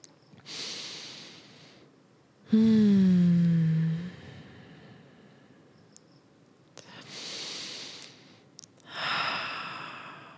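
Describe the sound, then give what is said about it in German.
Deep breaths in a guided breathing exercise: two slow cycles of airy inhales, each followed by a long exhale, the first exhale becoming a voiced sigh that falls in pitch. The breaths are fairly quiet, with faint pauses between them. “Da können wir nochmal machen, dass wir einfach tiefe Atemzüge zusammen nehmen.”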